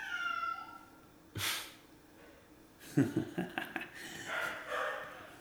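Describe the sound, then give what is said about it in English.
A cat yowls on a porch, giving a drawn-out, wavering cry that dips and rises in pitch at the start. A burst of noise and a run of short, breathy snorts follow, all fairly faint. “That's a cat, by the way. It's not somebody screaming.”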